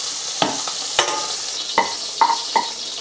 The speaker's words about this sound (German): Dann geben wir erst Zwiebeln und Fenchel rein und eben so ein paar Minuten später den Knoblauch dazu.